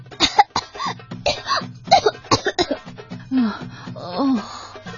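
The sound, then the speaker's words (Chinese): Coughing and sputtering as water is spat out after nearly drowning, in a rapid run of harsh coughs mixed with gasping breaths and throaty, voiced sounds. “它们赶紧大口吸气，把灌进嘴里的苦水吐了出来。”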